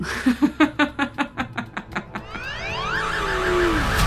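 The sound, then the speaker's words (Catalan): An alarm going off: a rapid run of loud, evenly spaced pulsing beeps, then a continuous sweeping, warbling siren tone that keeps sounding. “Però, clar, ara torna a sonar l'alarma. Ara no puc parar l'alarma de cap manera fins que no arribin els Mossos d'Esquadra”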